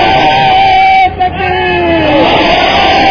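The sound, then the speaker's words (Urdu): A large crowd at a religious gathering shouts a slogan in unison. The loud, sustained chorus of voices breaks off briefly and then resumes with full force. “ہاتھ کھڑا کر کے بتائیں, جو ہاتھ کھڑا کریں باقی انہیں مبارکباد دیں, نعرہ لگائیں ان کے لیے مبارک دینا.”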